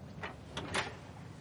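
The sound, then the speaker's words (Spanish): A door with an opaque panel being opened in a house decorated for Christmas: a few soft, brief clicks and scrapes, faint and quick. “Abre una puerta opaca”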